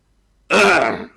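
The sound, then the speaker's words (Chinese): A single gruff, voiced cough like a throat clearing bursts in abruptly after silence, holds loud for about half a second, then cuts off. “咳嗽一声”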